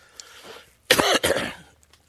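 A cough followed by throat clearing, brought on by a tickle in the throat, comes as two loud, rough bursts close together after a quiet moment.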